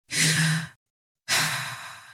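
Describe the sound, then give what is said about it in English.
Deep breath in and out, two loud, airy breathy rushes separated by a short silence, the second trailing off more gradually. “Take a deep breath.”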